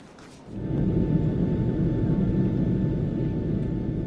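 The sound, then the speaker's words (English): Airplane cabin rumble during flight: a dense, steady low roar that swells in after about half a second and then holds level, loud and unbroken, with no talk over it. “In the air, through the window of the plane, the lights of New York.”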